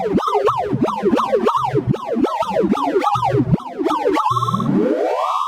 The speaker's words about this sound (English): My name is Wouter Bernhard, and that sound you just heard is a sorting algorithm, a computer program that is trying to organize a whole bunch of data. Here's another one for you.